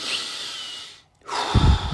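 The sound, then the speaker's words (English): A deep breath taken alone: a long, airy rush that fades into a brief silence, then a louder, rougher breathy burst with a low, gusty rumble underneath. “I'm going to take a break and breathe.”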